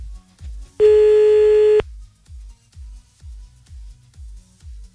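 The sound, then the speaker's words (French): A telephone ringback tone sounds on an outgoing call: one steady, bright ring lasting about a second. A low, rhythmic thumping pulses underneath throughout. “Bon, décroche. Encore une sonnerie.”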